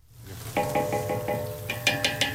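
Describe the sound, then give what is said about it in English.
Metal clinks and scrapes as slivered almonds are stirred and sautéed in margarine in a huge aluminum pot outdoors at a nonprofit kitchen. Many ringing, tonal clanks sound over a low, steady sizzle. “At a nonprofit kitchen, Serena, the chief cook, is making a meal for 2,000. She sautés slivered almonds in margarine in a huge aluminum pot outside”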